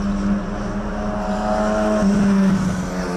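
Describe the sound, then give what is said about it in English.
Car engines from night-time street racing in Sioux Falls make a loud, continuous droning hum, with the engine pitch shifting partway through as the cars rev. “In Sioux Falls, the sounds of summer include street racing well into the night.”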